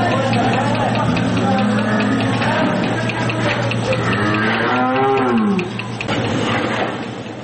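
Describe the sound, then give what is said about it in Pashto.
Cows moo on a dairy farm in Kandahar's Dand district, where 140 cattle are milked by machine. A few deep, drawn-out moos rise over a steady, loud humming background. “د کندهار د ډنډ ولسوالۍ د غواګانو په دغه فارم کې 140 غواګانې سته چې د پرمختللو ماشینونو په وسیله لوشل کیږي”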